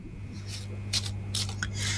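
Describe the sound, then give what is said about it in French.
A deck of cards being shuffled, a few soft papery riffling bursts over a low steady hum. “Alors, je mélange. Alors, je vais déposer les cartes et un stop quand vous le désirez.”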